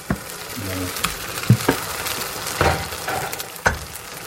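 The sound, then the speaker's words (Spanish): Egg mixture for a tortilla hitting hot oil in a frying pan, giving a soft continuous sizzle with a few sharp clinks and taps of utensils against the pan, quiet overall, with brief voices in between. “como ya tenemos el aceite caliente y está bien extendido, vamos a echarle la mezcla.”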